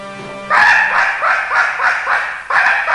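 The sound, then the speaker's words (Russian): A hunting dog barks at people out hunting, giving a steady run of loud, even barks spaced roughly half a second apart. “этот паршивый пес, что нас за зайцев принимает, что ли? Лает на нас.”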